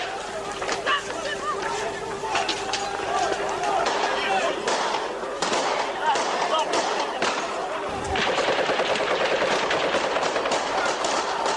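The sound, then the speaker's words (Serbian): Gunfire crackles during street clashes in Kosovo as thousands try to cross a main bridge while stones are thrown. Sharp cracks break through a loud, continuous crowd din. “Lete kamenice, počinje pucnjava”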